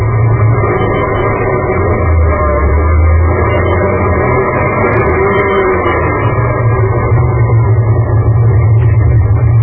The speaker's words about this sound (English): one morning on 53rd Street, a couple of guys were just pulling up in front of a garage. Just the garage? Yeah. Go on, drive in.